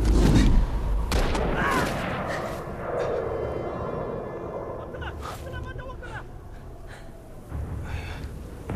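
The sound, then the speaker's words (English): Rifle gunfire on a mountain in a blizzard, opening with a heavy, booming shot followed by scattered sharp cracks, under loud breathing and gasps. “Arian takes one out with his rifle.”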